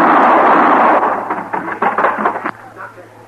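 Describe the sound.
Gunshots: several sharp, loud cracks in quick, uneven succession follow a stretch of dense rushing noise, with the last shot standing apart and the sound fading out after it.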